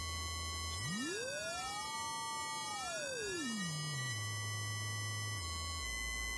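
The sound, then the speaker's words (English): A synthesized oscillator tone passed through a frequency shifter, pushing its bass down near zero: a pure tone glides up from a low hum, holds high, then slides back into a steady low drone, with faint whistling partials crossing above. “you can hear that because there's now a 100 kilohertz phase shift, and the original oscillator was a kilohertz. The bass tone of the oscillator is now down at almost zero, so you can hear the kind of really low frequencies from that.”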